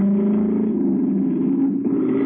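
A car engine runs with a steady, low droning hum through the whole clip, with a brief dip near the end.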